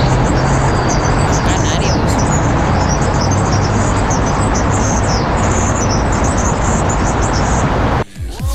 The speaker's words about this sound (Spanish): Parece jilguero o pardillo.